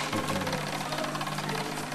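A sewing machine running, a steady fast mechanical whirr with dense, regular stitching clatter that continues unbroken throughout.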